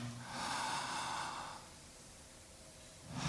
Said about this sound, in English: So breathe in.